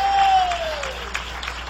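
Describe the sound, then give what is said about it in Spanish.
An audience at a church worship service gives dense, clattering applause. A sustained high tone glides steadily downward beneath the clapping during the first second. “Dale un aplauso al Cordero de Dios.”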